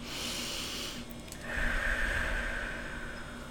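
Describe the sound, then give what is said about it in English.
A deep breath taken before guiding meditation: two soft, airy breath sounds, each lasting more than a second, with no talk. “So when I'm guiding meditation, I'll just like take a deep breath.”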